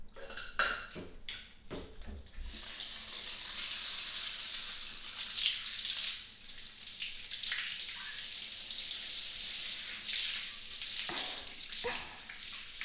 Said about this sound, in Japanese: 本日もお仕事お疲れ様でした。お背中流しますね。